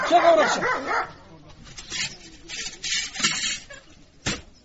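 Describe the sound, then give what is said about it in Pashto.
A dog barks a few times in short separate bursts, after a voice is heard at the start. “سپی دی نیسه چې اومو نه داړي.”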